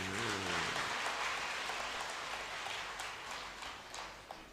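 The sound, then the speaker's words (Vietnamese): An audience at a Buddhist dharma talk applauds with dense, continuous clapping that keeps an even rush throughout and eases slightly toward the end, with a voice briefly audible at the start. “Vỗ tay chúc mừng mình đi.”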